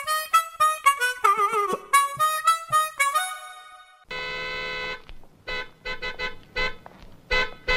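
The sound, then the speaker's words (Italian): A very sensitive car horn sounds after being touched lightly with an elbow. A melodic tonal passage comes first, then a long steady blast, then many short, uneven toots in quick succession. “Lei ha clacsonato. Tu ha clacsonato? Io no. Ah, sì, ho appoggiato appena il gomito. È un clacson sensibilissimo.”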